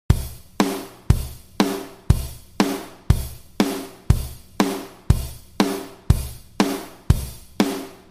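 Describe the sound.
A basic rock beat played on a drum kit: strong, evenly spaced hits at a moderate tempo, about sixteen in all, repeating the same simple pattern throughout with no other sound.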